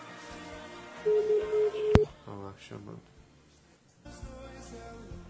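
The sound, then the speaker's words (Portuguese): A ringback tone sounds once on an outgoing telephone call, a steady mid-pitched buzzing beep lasting about a second. Voices then talk over the phone line. “Tá chamando aqui? Alô?”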